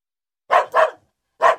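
A dog barks three times in a flat: two quick barks close together, a short pause, then a third, each sharp, mid-pitched and fairly loud.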